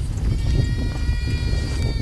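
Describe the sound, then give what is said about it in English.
Goats bleating on a farm, shuffling behind a wire fence: nasal, wavering bleats rise over a steady low rumble of movement and background noise. “Goats shuffle behind a wire fence.”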